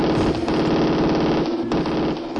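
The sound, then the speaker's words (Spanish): Gunfire sound effect used as celebratory shooting: a rapid, dense burst of shots like automatic fire, loud and unbroken for about two and a half seconds. “Estamos tirando tiros de contento.”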